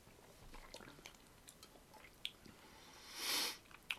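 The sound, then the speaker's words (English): Soft, wet chewing and biting on a juicy food during a tasting, quiet and squishy with a few sharper bites and a louder breathy burst near the end. “Hang on, let's have a taste.”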